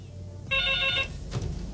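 A telephone ringing for an incoming call, a single short bright ring of about half a second over a steady low background hum.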